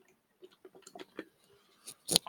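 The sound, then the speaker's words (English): Chewing and crunching of a Scotch bonnet flavoured food item: a run of soft, irregular mouth clicks and squishes, then one louder, crisp crunchy burst near the end. “Now I got to eat my Scotch bonnet one”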